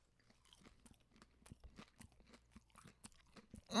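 Crunchy bites and chewing of oven-baked food flipped midway through cooking, many short crisp crunches in a steady rhythm, faint and with no talk, ending in a sudden louder sound.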